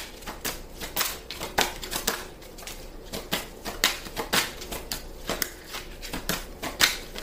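Cards being shuffled: a continuous run of many soft, crisp flicks and taps in an uneven rhythm, fairly quiet, with no talking over it.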